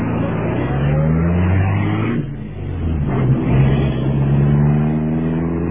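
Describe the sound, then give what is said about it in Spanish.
A luxury car's engine hums with a low, steady harmonic drone as it drives away. The sound dips briefly midway, then swells again. “Abordaron un lujoso automóvil.”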